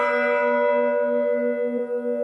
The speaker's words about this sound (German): Er schlägt die Glocke und bittet um eine Schweigeminute für den Frieden.